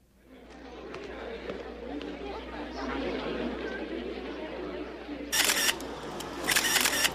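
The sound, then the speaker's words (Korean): A camera shutter fires in two quick bursts of rapid clicks over a steady murmur of crowd chatter. “아, 사진 찍는 중인데 지나갔네.”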